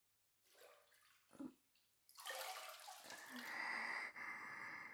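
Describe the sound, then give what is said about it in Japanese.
Hot water is poured over someone's shoulders in a bath, giving soft splashes that build into a steady, gushing pour. It is faint overall, with no talk. “それよりも、肩、寒いので、お湯かけてください。”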